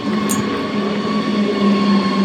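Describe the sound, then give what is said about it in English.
A train runs on a railway near a town, producing a steady, loud rumble with a constant tonal hum and metallic ringing, without talk. “At a railway nearby, we bump into commuters.”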